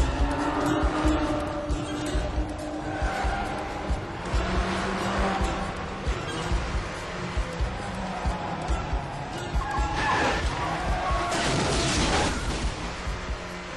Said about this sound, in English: this is Robert De Niro driving on the wrong side of a highway through a tunnel. Let's listen to this clip from Ronin.